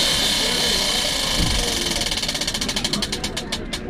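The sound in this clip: A prize wheel spinning on a game show: rapid ticking clicks that gradually slow and spread apart as the wheel winds down, with faint voices beneath.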